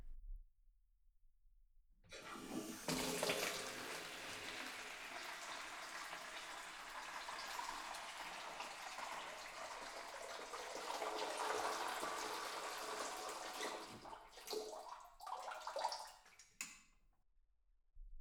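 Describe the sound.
Cold water is poured over a person's head during hair washing, giving a faint, steady rushing splash for about fourteen seconds that turns uneven and bursty near the end.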